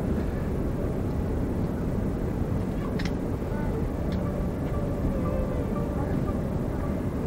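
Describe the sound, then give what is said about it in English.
Steady, broad roar inside an airliner cabin on final descent toward Kennedy Airport, with the even engine and air noise holding constant throughout and a couple of faint ticks. “we are actually approaching Kennedy Airport. I didn't think this item would be complete without the landing. So we're gradually going down on what I'm sure is our final descent.”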